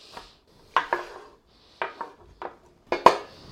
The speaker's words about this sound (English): Like I said, any pepper will do. Chop it up into little bits.